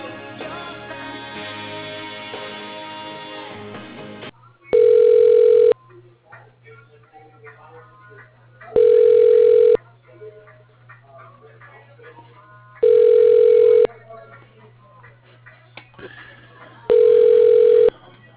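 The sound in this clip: A telephone ringback tone sounds as a call rings through to an extension: four steady, even one-second ring bursts, spaced about four seconds apart, over a low continuous hum.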